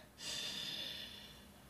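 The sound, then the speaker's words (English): A single deep breath drawn in: a steady, airy rush that swells quickly and lasts over a second before easing off, with no talk. “as you take a deep breath in, your stomach should expand. So taking a deep breath will look like”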